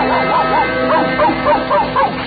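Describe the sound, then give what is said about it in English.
A cartoon dog billed as a deep-voiced opera basso barks and woofs in many rhythmic, sung-like bursts over a steady musical tone; a human voice imitates the dog. “Presenting that famous canine basso, Pluto the Pup.”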